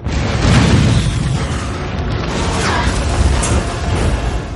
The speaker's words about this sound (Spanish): Se clava en un depósito provocando una explosión junto a Taserface.